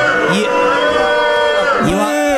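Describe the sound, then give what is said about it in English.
A game show studio audience boos, with many loud voices in sustained, overlapping moans that hold a steady pitch, and a few louder swells within the crowd noise. “You are absolutely right to boo those two.”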